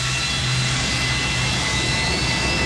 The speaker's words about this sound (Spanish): Como que el avión tomaba vuelo.